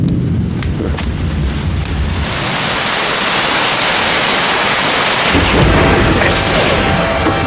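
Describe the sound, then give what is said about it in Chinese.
Loud thunder rolls in a deep, continuous rumble as rain starts, a dense hiss of falling water. The low rumble eases near the end while the steady rain hiss carries on. “这么大的雷啊，吓我一跳！你看，哎呀，要下雨了。”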